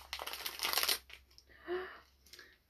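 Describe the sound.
Crinkling of a plastic packet of organic mango fruit gummies being opened: a dense burst of crackly rustling lasting about a second, followed by quieter, scattered rustles.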